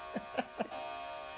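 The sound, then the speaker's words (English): A clock goes off at noon with three evenly spaced chime strokes, followed by a steady held ringing tone that carries to the end. “There goes our clock again. It's noon again.”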